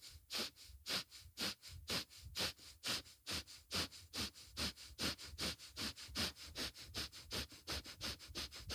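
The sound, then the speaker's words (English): Rapid, forceful breathing in and out through the nostrils during a diaphragm breathing exercise. Many sharp, hissing sniff-like pulses repeat in a fast, steady rhythm throughout, fairly quiet and with no talking. “Keep fluttering the diaphragm with every inhale and exhale faster and faster. Go as fast as you comfortably can.”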